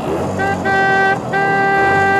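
An old car sounds two long, steady horn honks with a brief break between them, its bright, buzzy tone carried over a low engine rumble.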